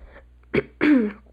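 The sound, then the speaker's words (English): A man clears his throat: a short rough burst, then a longer, deeper voiced rasp, alone and fairly loud. “He takes a deep breath, clears his throat.”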